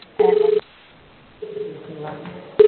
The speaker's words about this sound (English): I'm sorry about the ringing phone